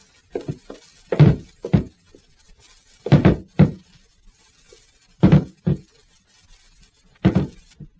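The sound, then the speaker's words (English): Heavy wooden thuds as a table is used as a battering ram against door panels, many blows landing in rough pairs at fairly regular intervals with quiet gaps between. “Maybe if we both got a hold of that table... Here, give me a hand. Here. We'll use it as a battering ram and try and break in the panels, right?”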